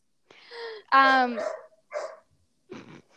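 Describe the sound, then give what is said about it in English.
A dog barks inside its crate, giving a few short, strained barks and yips with a whiny, tonal edge, separated by brief silences. “Sorry if you can hear my dog barking.”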